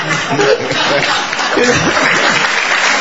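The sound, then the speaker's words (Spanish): Audience applause in a theatre: a dense, steady clatter of many hands lasting about three seconds, with voices faintly audible through the clapping. “Ya la gente le aplaude para venir.”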